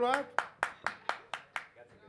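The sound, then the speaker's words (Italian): Rhythmic hand claps welcome a professor on an Italian on-air show: a steady, evenly spaced run of sharp, crisp claps that softens toward the end, with a voice briefly trailing off at the start. “prego un applauso”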